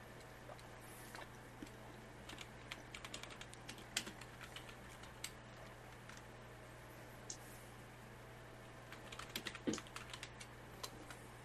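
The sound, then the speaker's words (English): Faint typing on a computer keyboard, many light, irregular keystrokes over a steady low hum, with denser bursts of clicks near the middle and toward the end. “Then you pick up a smattering of words, which I am typing into your DMs as we speak.”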